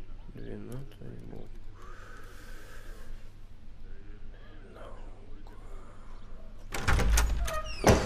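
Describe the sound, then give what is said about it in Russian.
A door being forced at a police station office: scraping and rattling sounds build to a burst of loud, heavy bangs near the end, with faint breathy vocal sounds in between. “ты что мне дверь ломаешь?”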